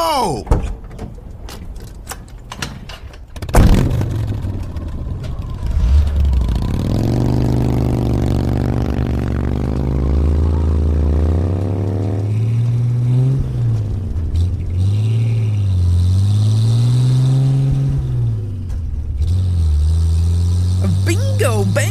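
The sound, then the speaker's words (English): Car engines rev up with a loud, rising whine that climbs in pitch before settling into a steady low drone that wavers up and down, while people talk over the engine noise. “Diehards, rev them up, roll them out.”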